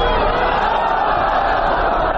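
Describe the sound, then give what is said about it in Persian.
Thousands of people chanting slogans at a rally outside Herat's sports stadium: a dense, unbroken roar of many voices that holds at a steady, loud level throughout. “هزاران تن از باشندگان هراتی در مقابل استادیوم ورزشی هرات با دست داشتن عکس های از قماندانان جهادی و پرچم های سبز رنگ شعار دادند.”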